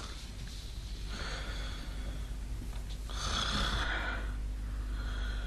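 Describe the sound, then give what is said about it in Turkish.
A tired woman, a housemaid, snores in her sleep: faint, slow, breathy snores, a couple of drawn-out rasping breaths separated by a quieter pause. “Hizmetçi. Uyuyor. Evet. Zavallı kadın çok yorgun olmalı. Horluyor da.”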